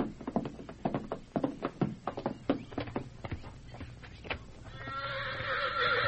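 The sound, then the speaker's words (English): A white stallion acting up in a lean-to: a run of sharp knocks and hoof clops gives way to a long, shrill, wavering whinny at the end. “Hey, that stallion's still acting up in the lean-to.”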